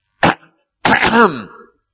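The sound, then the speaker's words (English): A man clears his throat, a short rough burst followed by a longer, voiced, rasping 'ahem' that trails off, with no other sound around it. “right in a pregnant, dramatic pause, somebody clears his throat,”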